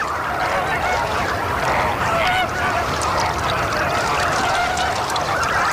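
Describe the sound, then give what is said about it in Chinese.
Dense, continuous honking calls from a flock of chicks, with an adult red-crowned bird calling among them as it searches for its own young. The calling stays loud and steady throughout, with many overlapping voices. “一只大红冠成鸟在幼鸟群中寻找它心爱的孩子。”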